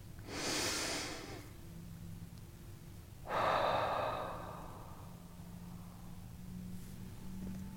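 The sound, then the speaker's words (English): A deep breath taken during a guided eyes-closed meditation: a long, airy inhale, a pause, then a louder sighing exhale. Both are soft and breathy with no talk. “And I invite you in joining me in a breath.”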